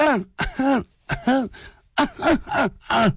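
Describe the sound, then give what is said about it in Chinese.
A storyteller's voice imitates a weakened young man's hollow cough, a series of strained, voiced coughs and throat-clearing groans that come in short bursts, loud and with no other sound. “这咳嗽都这动静。”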